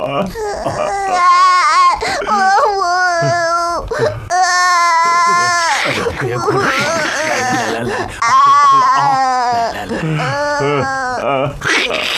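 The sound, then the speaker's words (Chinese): Loud wailing from an elderly man crying, with long, quavering sobbing cries in several bursts separated by brief breaks. “老施主，你别哭了，你有什么事尽管说嘛，哭什么呀？”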